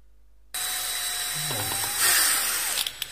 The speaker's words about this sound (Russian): Как с помощью шуруповерта делать аккуратный скрутку.